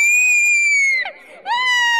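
A woman screams during an exorcism: two long, piercing high-pitched cries, the first held for about a second and sliding slightly downward before breaking off, the second surging back in after a brief gap.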